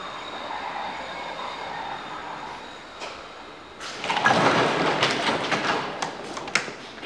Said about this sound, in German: Schnell, wir haben keine Zeit. Da kommt der Zug. Er wartet nicht.